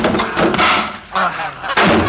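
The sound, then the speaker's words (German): Goose honking in loud, harsh bursts as the bird steps in front of a car on the road. A few honk clusters come in quick succession with short gaps between them, and no talk is heard. “Die blöde Gans ist gekommen!”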